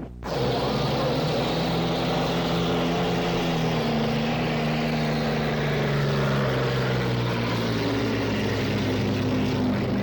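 The Miss Madison hydroplane racing boat roars off at the start of the Horace Dodge Trophy race, a loud, sustained engine drone that kicks in abruptly and holds steady throughout.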